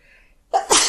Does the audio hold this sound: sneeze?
yes

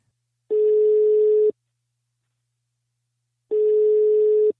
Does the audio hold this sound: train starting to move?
no

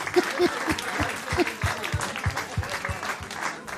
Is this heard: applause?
yes

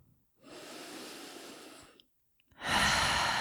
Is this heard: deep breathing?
yes

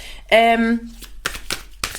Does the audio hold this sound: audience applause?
no

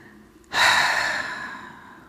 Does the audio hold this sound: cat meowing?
no

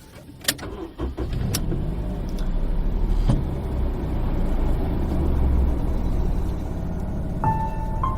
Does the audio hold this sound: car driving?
yes

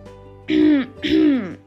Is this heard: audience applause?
no

